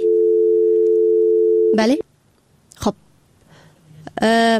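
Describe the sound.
A steady, unbroken dial tone plays for about two seconds after a phone call drops, then cuts off. Brief, scattered voice fragments and noises follow, ending in a short louder burst.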